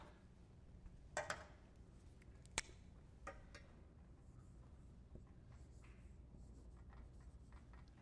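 A pen writes in a different color, a faint, steady scratching broken by a few brief ticks and clicks of the tip against the surface.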